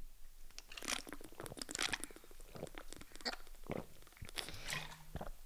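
Someone takes a sip of a drink: a quiet run of crackly, crunchy mouth and handling noises with slurps and swallows, irregular and close together, with no talking.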